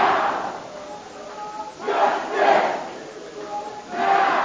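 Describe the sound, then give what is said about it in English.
Hundreds of protesters inside the North Carolina General Assembly chant in loud, repeated swells that rise and fade about every two seconds, with quieter murmuring between them. “That's the sound of hundreds of protesters inside the General Assembly.”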